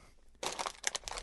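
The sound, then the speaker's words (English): Crinkling wrapping paper as a Christmas gift is unwrapped: after a quiet start, a burst of dense rustling and crackling runs steadily to the end, with a few sharper crunches in the middle. “I have gotten you the Christmas gift. Yes. If you want to go ahead and unwrap it.”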